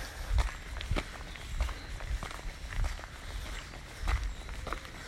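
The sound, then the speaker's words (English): Footsteps of a person out on an early-morning walk, with many steady, evenly spaced steps. Each step lands with a soft thud and a light scuff, and no voices are heard. “I'm getting this walk in nice and early before it gets warm.”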